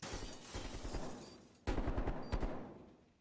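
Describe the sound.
Gunfire in a shooter video game during a match with a tank: a faint run of rapid shots, then two sharper, louder bursts in the second half that trail off.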